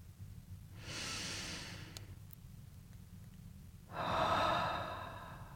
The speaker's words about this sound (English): And I invite you to take a breath.